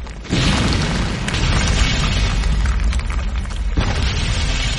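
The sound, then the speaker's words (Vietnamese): Loud, rumbling blasts of artillery shelling with earth and stone flying, forming a dense, continuous roar that dips briefly near the end before surging again. “nó đang pháo kích. Đất đá bay rào rào”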